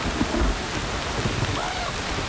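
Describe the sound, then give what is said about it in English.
Short, torrential rain with thunder: a steady, dense hiss of heavy downpour fills the whole stretch, with low thunder rumbling beneath it and no voices. “It rarely rained now. And when it did, it was short and torrential.”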